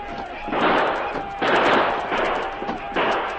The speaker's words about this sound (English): For the next 15 minutes, the sergeant and Chet fired steadily at the menacing shadows, creeping closer and closer to the post.